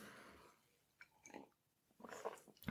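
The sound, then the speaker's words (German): Faint sipping of coffee: soft slurping and mouth sounds with a quiet swallow and breath, a few brief low-level bursts against near silence. “trinke ich gerade einen Schluck Kaffee. Kleinen Moment.”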